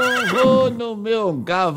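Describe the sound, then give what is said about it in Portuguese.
A voice imitates a horse whinnying, pretending to ride a small horse: a loud, high, wavering neigh in two bursts with a brief dip between them. “Eu vou no meu cavalinho,”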